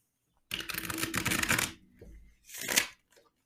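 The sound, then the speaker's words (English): Tarot cards are shuffled in two bursts of dense, crisp riffling and flapping. The first burst is long and the second is shorter, with a brief lull between them. No one speaks. “I'm pulling four cards.”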